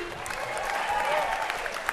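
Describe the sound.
Applause greets a performer as he is welcomed to the stage, many hands clapping in a continuous, even roar that holds steady throughout.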